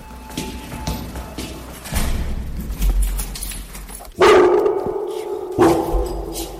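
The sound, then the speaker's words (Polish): Dogs bark inside a car, with two sharp, loud barks near the end rising above a rustling, noisy background. “to pieski w samochodzie”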